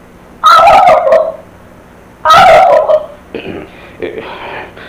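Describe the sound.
A turkey gobbles in two loud, rattling bursts about two seconds apart, followed by shorter, quieter calls trailing off toward the end.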